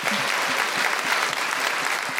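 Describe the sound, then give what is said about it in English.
Audience applause, a dense, steady round of clapping that fills the whole clip at an even, fairly loud level without a break. “Every time Leila Hussein speaks, she gets a round of applause.”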